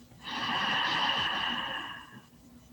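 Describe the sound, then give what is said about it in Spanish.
A slow, deep in-breath taken during a guided breathing exercise: one steady, airy inhalation lasting about two seconds, fairly loud and heard alone, easing off at the end. “Vamos a inhalar nuevamente,”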